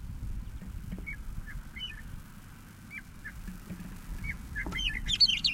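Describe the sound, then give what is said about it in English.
A bird calls faintly in the background with a scattered series of short, high chirps over low rumbling noise, growing busier with a quick cluster of calls near the end. “Bird three is audible in the background.”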